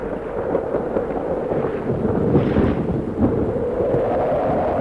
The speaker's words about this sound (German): Der Sturm nimmt überhand. Gehabt euch wohl. Es hagelt schwer.